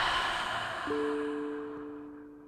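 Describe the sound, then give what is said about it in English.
A long exhale through the open mouth during a guided breathing exercise, a soft airy rush that slowly fades, with a steady gentle tone entering partway through. “And exhaling through the mouth and empty out. Let's breathe again, team. Inhale through the nose. Open the mouth and empty out.”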